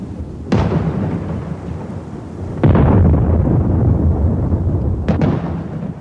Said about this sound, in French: Nous avons rejoint nos lignes et voilà que notre artillerie nous tire dessus.